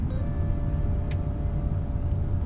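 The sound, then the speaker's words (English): Steady car engine and road rumble as the car pulls in behind a BMW, a dense low drone that stays even throughout with no other clear sounds. “I have just pulled in behind a BMW”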